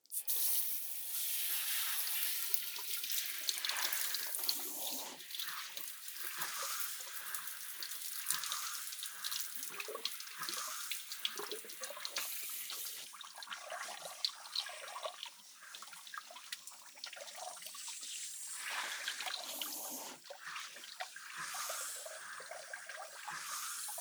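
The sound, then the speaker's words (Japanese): Running water rinsing freshly washed hair: a faint, steady stream of splashing and trickling with scattered drips that continues without a break for the whole length, no voices. “じゃあ、頭洗い流していくわね。”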